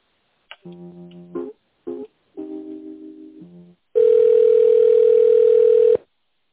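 Telephone line tones while a call is being connected: a few short buzzy tones at differing pitches, then one loud steady tone holding for about two seconds before cutting off.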